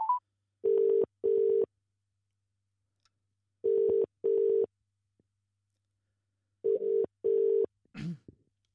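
Telephone ringback tone on an outgoing call: a short beep, then three double rings, each a pair of steady mid-pitched buzzes separated by long silent gaps, ending with a brief burst of noise.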